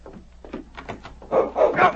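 A large dog barks as it charges into a cabin room, a run of sharp barks that grow louder and more insistent toward the end.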